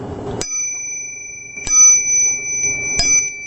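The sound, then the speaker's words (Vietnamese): A small bell is struck three times during a Buddhist teaching, evenly spaced. Each strike gives a clear, bright metallic ring with a high sustained tone that lingers between strikes. “Quý vị đại chúng có nghe tiếng chuông này không?”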